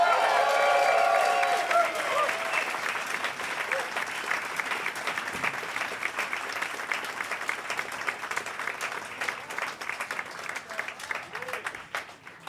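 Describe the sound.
An audience applauds to welcome a musician onto the stage for a live performance. Dense, sustained clapping starts loud, then gradually thins and loosens into scattered claps.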